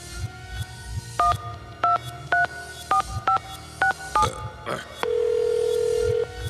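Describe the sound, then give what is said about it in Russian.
A telephone is dialed on a touch-tone keypad: a quick series of about nine short, clear dual-pitch beeps in an uneven rhythm, then a single steady tone lasting just over a second, over a faint low background. “А я вот сейчас вот ему позвоню.”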